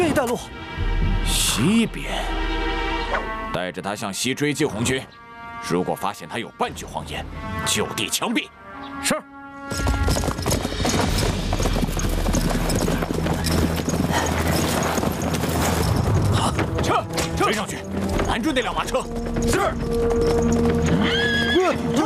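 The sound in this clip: Horses pulling a carriage neigh loudly while hooves clop in a rapid, continuous rhythm, with voices at times over the dense, loud mix.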